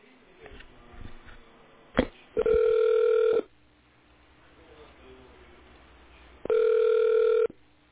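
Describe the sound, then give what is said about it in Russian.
Telephone ringback tone as a call is transferred to a technician: two long, steady beeps about a second each, separated by a pause of roughly three seconds, over faint background noise. “Оставайтесь, пожалуйста, на линии, перевожу ваш звонок на технического специалиста.”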